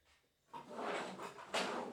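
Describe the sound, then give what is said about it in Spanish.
A drawer is pulled open while someone hunts for a small pharmacy medicine box: a quiet start gives way to a sustained rustling scrape, then a sharper, brighter burst of clatter near the end. “la tengo por aquí. Déjame que, mire en el cajón.”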